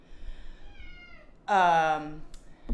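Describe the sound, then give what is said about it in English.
A cat lets out one loud, drawn-out meow with a clear, bright tone. A low background hiss runs before and after it. “That's my cat, obviously.”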